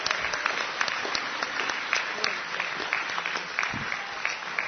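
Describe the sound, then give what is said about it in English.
Applause from the audience at an organization's meeting after a committee report: dense, continuous clapping with a few sharper claps standing out, steady for several seconds. “And let's give Judy a hand as well.”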